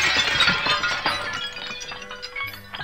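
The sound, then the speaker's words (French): A water pot being smashed, a burst of sharp cracking and shattering followed by scattered clinks and rattles of pieces settling over about three seconds. “Eh bien moi, qui suis Mariquita, pour participer, je vais casser mon pot à eau.”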